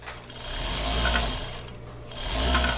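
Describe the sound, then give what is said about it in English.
Sewing machines whir in a textile shop where former fighters learn to make clothing on donated machines. The steady mechanical buzz swells and eases in two waves and is heard alone. “Now he helps ex-combatants learn to make clothing for sale using donated machines.”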